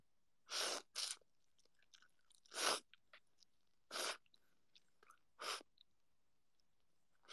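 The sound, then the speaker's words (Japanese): Someone eats soba noodles quietly: five short, breathy, noisy slurping bursts separated by softer chewing and smacking mouth sounds, with no talk. “そば食べながら。いただきます。いただきます！”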